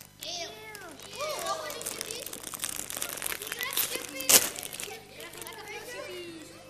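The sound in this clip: A bag of vinegar-flavoured crisps rustles and crinkles with crisp plastic crackles, and one sharp, loud crunch comes near the end. Children's voices talk throughout.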